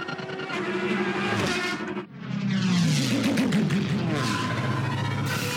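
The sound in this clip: Podracer engines roar through a film race scene, a dense, continuous loud rumble and whine that dips briefly near two seconds, then swells again with fast, repeated pitch sweeps as engines pass.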